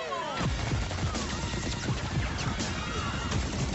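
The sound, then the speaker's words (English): Dense gunfire from a film trailer scene of mobsters opening fire in a movie theater: loud, rapid volleys of shots and crashes packed together throughout. “Gangster Squad's trailer features a scene of mobsters opening fire in a movie theater”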